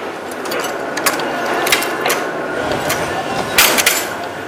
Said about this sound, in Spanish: Aún debo esperar a que cambien la aguja, ¿verdad?